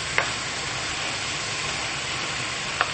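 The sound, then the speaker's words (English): Onion being stirred in a hot pan with meat: a steady, even sizzle of frying, with two light clicks from the utensil at the start and the end. “Time for a bit of stirring. To make sure the onion is covered.”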